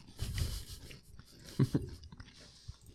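Faint crunching and chewing as someone eats snacks: soft bites at first, then a couple of sharper crunches, with quiet gaps between.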